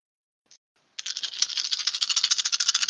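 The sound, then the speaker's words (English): Dice rattling for a perception check in a tabletop game: one brief click, a short pause, then about two seconds of dense, bright clattering made of many quick overlapping knocks, with no voices. “And then roll your perception. All right, let's try the Dave dice this time.”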